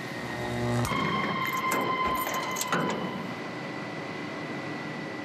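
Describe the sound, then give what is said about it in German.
In a sugar factory, a rotating steel drum with large circling knives chops sugar beets. It gives a quiet mechanical drone with steady tonal whines and busy rattling clatter, which is livelier in the first three seconds before settling into a steadier hum. “Hier in dieser Trommel kreisen große Messer und schneiden die Rüben klein.”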